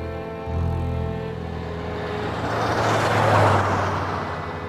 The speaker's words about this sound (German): Zwei Autos jagten mit großer Geschwindigkeit auf der Überlandstraße durch Arizona.